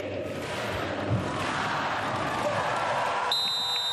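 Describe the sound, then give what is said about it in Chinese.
Referee's whistle opening a volleyball match between Brazil and the USA: a steady, shrill tone enters late and holds to the end over continuous crowd noise. “主裁是吹响了本场比赛的哨声，比赛是由巴西队来率先发球。”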